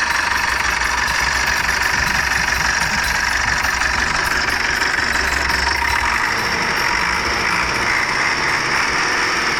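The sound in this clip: A Toyota Bandeirantes 4x4 engine runs loudly and steadily with a rough, knocking idle and a dense, constant mechanical clatter; no distinct rev is evident.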